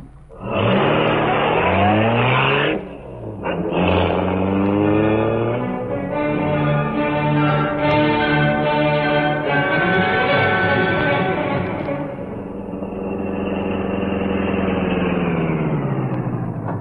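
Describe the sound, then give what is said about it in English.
A car engine roars as the car is driven fast. Its pitch climbs steeply, dips briefly, then settles into a loud sustained drone that wavers and eases toward the end. “Fast driving”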